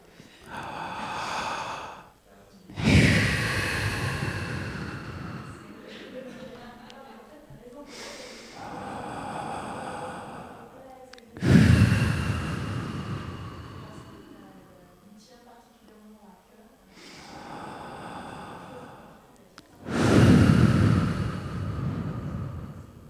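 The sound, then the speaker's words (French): Three deep breaths taken together just before a radio show begins, each a loud, evenly spaced rush of air, with softer airy breathing between them and no talk. “Avant de commencer, on va s'accorder 3 respirations.”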